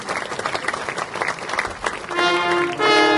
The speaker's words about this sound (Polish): Pamiątkowe medale z okazji 15-lecia powiatu lidzbarskiego. Wielkie brawa, drodzy Państwo